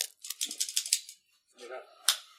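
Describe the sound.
A cigar cutter clipping the straight cap of a cigar: a run of crisp, dry clicks, then a short pause and a softer rustle ending in one sharp snip.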